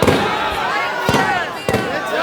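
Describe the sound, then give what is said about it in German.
Firecrackers thrown by demonstrators go off in a few sharp, loud bangs over a dense, continuous wash of noise. “Die Demonstranten werfen mit Böllern um sich.”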